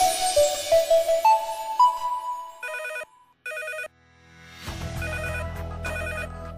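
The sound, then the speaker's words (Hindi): A telephone bell rings in two bright, metallic bursts separated by a short silence, preceded by a brief melodic phrase of rising notes and followed by music coming in. “अचानक उस सन्नाटे में phone की घंटी बजी।”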